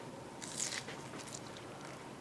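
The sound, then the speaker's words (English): Crunching on a bite of lobster set on a small lettuce leaf, coated in Marie Rose sauce and dusted with cayenne or paprika; a steady run of crisp, moist chewing crunches with no talk. “He puts a bite of lobster on a small lettuce leaf, topped with the Marie Rose. And just coat it with the sauce and a little, just to pretty the thing, little shake of cayenne or paprika on the top. Go on, crunch it down.”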